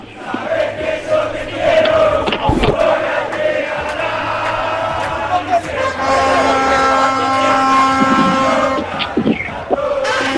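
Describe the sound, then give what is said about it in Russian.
French football fans chanting on the streets of Kazan, a loud crowd of voices holding drawn-out, tonal calls that carry on steadily, with a few sharp bangs mixed in. “Вот вы слышите, как французские болельщики выкрикивают, кто не скачет, тот не француз.”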